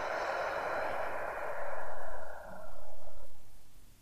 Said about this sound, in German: Atme einmal tief ein in den Bauch und wieder tief aus.